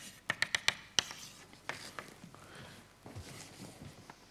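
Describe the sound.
Faint writing of an equation on a board, a quick run of a few sharp taps followed by softer, scattered scraping strokes.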